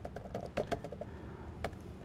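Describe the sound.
Typing on a computer keyboard, a quick, irregular run of soft key clicks, faint and heard alone.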